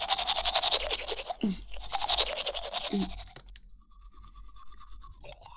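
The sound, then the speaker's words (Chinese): A toothbrush scrubs as a mother brushes a child's teeth, with quick, rhythmic back-and-forth bristle strokes in two busy runs, then softer, sparser brushing toward the end. “放轻松，妈妈帮你刷牙哦，别紧张，只要刷干净。”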